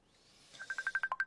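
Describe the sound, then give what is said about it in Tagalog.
A mobile phone rings with an incoming call, a quick regular run of short, high electronic beeps that starts after a brief faint lead-in. “Oh, may nagpanawag. Oh, cellphone ko.”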